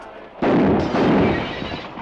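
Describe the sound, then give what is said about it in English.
A gunshot blasts biscuits and shoots out a window: a sudden loud boom, then a sustained roaring burst with a second surge shortly after, fading slowly at the end. “He blasts the biscuits and shoots the window out.”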